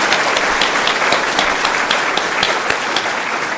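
Audience applause for a brave ten-year-old girl: a steady, dense wash of many hands clapping, loud and unbroken, with a few sharper individual claps standing out and no voices over it.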